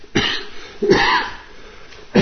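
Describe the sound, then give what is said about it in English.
Coughing in three harsh, raspy bursts separated by pauses, with rough throat noise between them, moderately loud and alone. “This cough. I do apologise.”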